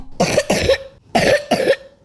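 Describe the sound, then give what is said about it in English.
Wet, persistent coughing from a person with a long-lasting chest illness, heard as four harsh, congested coughs arriving in two pairs, loud and alone with no talk. “So if you hear a wet cough that won't go away,”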